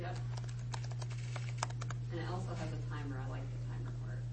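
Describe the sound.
Typing a URL on a computer keyboard produces a quick run of crisp keystroke clicks for about two seconds, then a voice talks over a low, steady hum.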